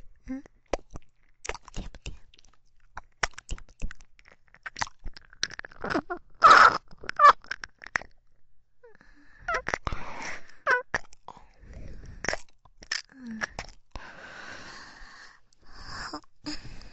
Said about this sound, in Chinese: 又吃了一粒薄荷柠檬味的糖果，是不是很香？